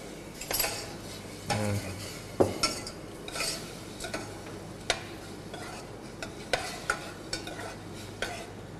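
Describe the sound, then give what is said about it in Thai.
About 100 grams of pork seasoned with a teaspoon of fish sauce is dry-stir-fried in a pan without oil, with many irregular scraping and tapping utensil strokes against the pan over a soft, steady sizzle. “ตอนนี้เนี่ยเราก็รวนหมูไปเรื่อยๆการรวนแตกต่างกับการผัดการทอดการเจียวอย่างไรการรวนเนี่ยจะใช้ไม่ใช้น้ำมันนะฮะ”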